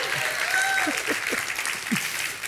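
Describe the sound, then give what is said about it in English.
Audience applause for a speaker's wife during a talk: steady, moderately loud clapping that runs throughout, with a few voices audible in the crowd. “You guys applaud for my wife.”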